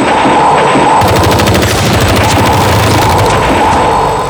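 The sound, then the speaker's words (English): Rapid gunfire as Autons open fire in a sci-fi audio drama battle: a dense, continuous burst of rattling shots starting about a second in, over a loud steady rumble and a constant high tone. “Must be at least 70% saturation before the final phase. Autons, open fire!”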